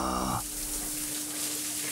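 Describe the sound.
Soft, continuous hissing trickle of a young dog urinating outdoors, steady and fairly quiet after a brief voice at the very start, with a faint constant low hum underneath.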